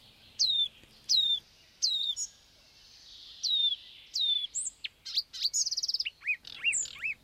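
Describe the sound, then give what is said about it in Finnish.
A marsh warbler sings from a juniper thicket it holds as territory, a bright, loud song of repeated downward-sweeping whistled notes that breaks into rapid, varied chirps and trills, including mimicked calls of other birds. “Katajikon reviirikseen valinnut luhtakerttunen on osoittautunut todelliseksi mestarilaulajaksi.”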